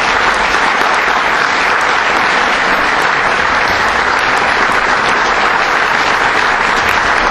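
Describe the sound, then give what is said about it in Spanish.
Applause from a crowd closes a tribute event. It is loud, dense and steady for the whole stretch, with no single voice standing out. “Qué manera de finalizar este encuentro, este homenaje, recibiendo con este aplauso nada menos que a Numa Morales.”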